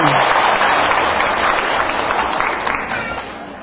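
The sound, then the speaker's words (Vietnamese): An audience at a Buddhist sermon breaks into applause, a dense, steady patter of many hands clapping at once that stays loud throughout and thins slightly toward the end. “Chính xác, cho một tràng pháo tay.”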